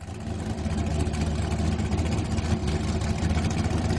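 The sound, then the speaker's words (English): Engine of an American gas-guzzler car that needs a tune-up, a steady, rough, low rumbling idle that runs continuously at a constant level. “All right, now that is the sound of an American gas guzzler. It sounds that needs a tune-up. Is spewing out soot and carbon emissions.”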